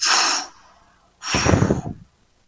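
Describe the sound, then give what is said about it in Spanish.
A person blows out two strong breaths separated by a short pause: first a brief airy hiss, then a longer, rougher exhale with a breathy low rumble that fades out. “sopló en su nariz el aliento de vida, sopló”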